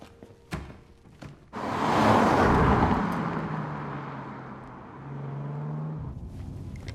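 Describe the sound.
A car drives off: a few short knocks, then the engine roars up loudly and settles into a steady, sustained drone lasting several seconds.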